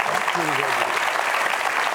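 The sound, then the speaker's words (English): Studio audience applause on a talk show as a guest is welcomed, a steady, even wash of clapping from many people with a voice briefly heard over it. “the audience didn't know what they were clapping about”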